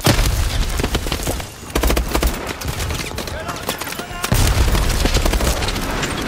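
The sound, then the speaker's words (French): Rapid gunfire and heavy booming explosions from a violent military video game, dense and loud almost throughout, with bursts of fire overlapping, a brief lull near the middle, then a renewed barrage. “Voilà, extrait du jeu Call of Duty, par exemple.”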